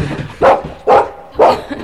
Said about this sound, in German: Braver Hund!